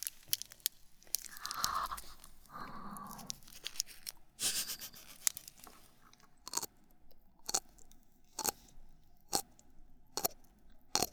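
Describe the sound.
Crunchy ume shiso (pickled plum and shiso) flavored snack being chewed. Dense crunching and rustling come first, then a steady run of sharp, distinct crunches spaced about a second apart, fairly faint and without speech.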